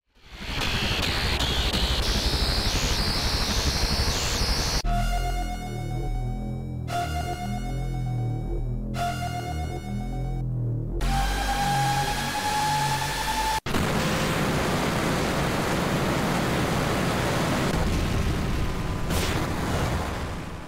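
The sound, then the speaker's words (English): Sound effect of Ultimecia exploding into rays of light in the video game Final Fantasy VIII: a loud, sustained rushing roar. Its middle section carries a series of bright, shimmering tonal sweeps, and it ends in a broad noisy wash. “Once you land the final blow, Ultimecia explodes into rays of light before she disintegrates. This looks rad, especially like the sound effect they have on it as like the rays of light start enveloping your party.”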